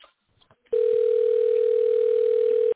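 A telephone dial tone sounds while a number is being called. A few faint clicks come first, then a loud, steady, unbroken tone holds for about two seconds and cuts off abruptly.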